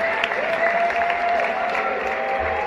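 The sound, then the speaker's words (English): An excited audience cheers and applauds in a steady, loud wash of clapping and crowd noise, with a sustained howl running through it. “People are howling, excited from what they just heard, and what they just saw.”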